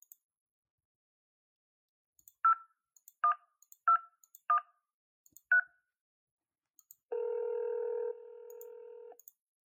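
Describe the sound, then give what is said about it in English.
Touch-tone beeps as a telephone number is dialed: five short, evenly spaced tones with faint clicks around them, then a pause and a longer steady tone that drops in level partway through. “Call me. Dial your number. Go ahead.”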